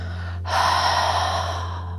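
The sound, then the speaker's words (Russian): One deep, steady breath during a guided breathing practice, a sustained airy rush lasting about a second and a half, set over a constant low electrical hum, with no voices. “Полный глубокий вдох через нос. Наполни грудную клетку и живот воздухом. Выдох через рот.”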